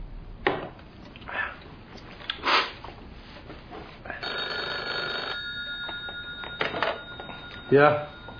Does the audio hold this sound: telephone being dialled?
yes